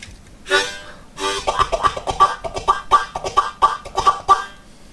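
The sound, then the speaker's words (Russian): Harmonica played in country harp style with a tuki-tuki tongue articulation, two longer blown notes followed by a rapid run of many short, detached, reedy pulses in a quick, even rhythm. “Вот моя самая любимая артикуляция – это туки-туки-туки-тук, так называемая. То есть то, что делали раньше вот кантри-харперы. То есть звучит примерно так.”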